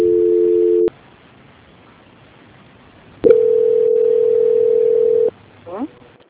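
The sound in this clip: Telephone tones during a call transfer: a short steady tone, a pause of silence, then a longer steady tone of about two seconds, followed by a brief voice.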